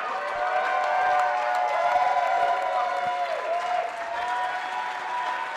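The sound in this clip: Enthusiastic audience ovation at a live event, full sustained applause with scattered cheers and whoops layered over the clapping, staying loud and continuous throughout with only a slight dip near the end.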